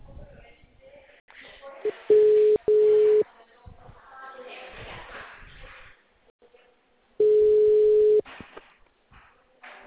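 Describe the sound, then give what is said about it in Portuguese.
Telephone tones while a call is placed again: steady low electronic beeps in separate pulses, two close together and one more after a longer pause, with faint background noise between them. “Ligando novamente.”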